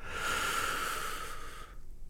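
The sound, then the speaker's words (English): A deep breath taken in a guided breathing exercise, a single continuous breathy rush lasting under two seconds that stops abruptly, with no voices. “And finally, one more, third breath in”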